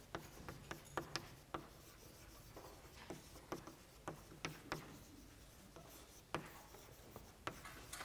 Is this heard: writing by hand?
yes